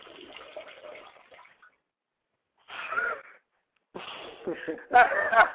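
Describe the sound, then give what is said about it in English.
A person urinating, heard as intermittent splashing bursts of running liquid broken by short silent pauses and ending in a louder final gush. “no one wants to hear you fucking draining the main vein”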